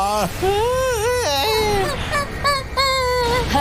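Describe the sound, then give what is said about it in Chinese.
People crying in loud, drawn-out wails with high, wavering pitch that rises and dips, breaking into sobbing bursts with brief catches between cries. “怎么回事儿？我们为什么会哭啊？”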